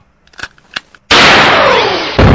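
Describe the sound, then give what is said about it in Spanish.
A gunshot sound effect: two faint clicks, then a sudden, very loud blast with a long, slowly fading tail, and a second burst cuts in right at the end. “Así que un disparo para la burocracia de PAMI.”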